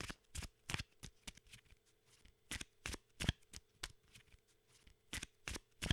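Playing cards are shuffled, a large pack gathered from three piles and mixed by hand. Many crisp, sharp snaps and flutters come in an uneven rhythm, fairly quiet, with no talk.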